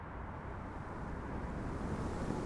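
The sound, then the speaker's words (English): Strong wind blowing outdoors by a diving platform, a continuous broad rushing roar that buffets the microphone and builds slightly toward the end, with no other distinct sounds. “it's already pretty windy and it's only going to pick up from now”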